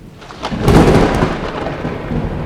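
A thunderstorm rolls in with heavy rain: a deep, loud rumble of thunder swells and lingers over a steady wash of pouring rain, then slowly eases while the rain continues.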